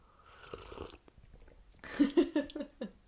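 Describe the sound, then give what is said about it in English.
Slurping sips of tea, ASMR style: a quick run of several wet, noisy slurps close together, following quieter rustling and breathy mouth sounds. “I don't know if you can hear that slurp, but that might either be really annoying or really satisfying. Here, let me give you a little ASMR.”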